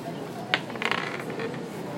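Dice rolled on a table during a tabletop RPG session: one sharp click, then a quick cluster of light rattling clicks as they tumble and settle, faint against a soft background.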